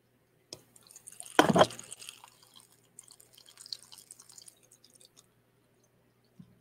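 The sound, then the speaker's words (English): Faint dripping and trickling from a small tabletop water fountain, with one louder splashy burst early on and then light, irregular drips over near-silence. “Can you hear that fountain? I got this little fountain going here.”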